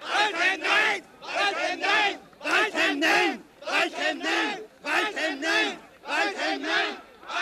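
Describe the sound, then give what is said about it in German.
Demonstrators at a 1986 Vienna protest against Kurt Waldheim chant "Waldheim nein" in unison, the short shouted phrase repeated many times in an even, rhythmic pattern with brief gaps between. “Waldheim nein, Waldheim nein, so klang es bei einer Demonstration in Wien 1986.”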